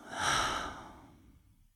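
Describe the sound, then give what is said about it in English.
A single long breath is exhaled out through an open mouth, a soft breathy rush that peaks early and then slowly fades away. “Take another full breath as you envision this space clean, clear, organized. Open the mouth and exhale it out.”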